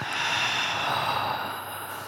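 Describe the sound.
A long exhale after a held breath during a breathing exercise, a broad, airy rush of breath that stays steady for about two seconds and softens slightly at the end, with no talk.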